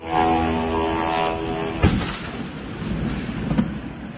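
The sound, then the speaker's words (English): An attack drone strikes an oil refinery near Moscow, heard as a heavy, sustained rumbling roar with two sharp impacts cutting through it, the first louder than the second. “So that was the sound of one hitting one of Moscow's most important energy facilities”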